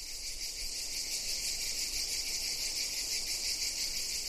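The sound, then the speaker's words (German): Crickets chirp in a continuous, dense, high-pitched chorus that holds steady and even throughout, with no voices or other sounds. “Hört ihr die Grillen? Ich höre sie auch. Bei mir hat alles mit dem Zirpen dieser Grillen angefangen.”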